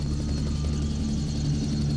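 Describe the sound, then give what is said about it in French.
A helicopter circles next to the studio, giving a steady, continuous low drone of rotor and engine with no clear breaks. No one speaks over it. “Un hélico qui tourne juste à côté du studio.”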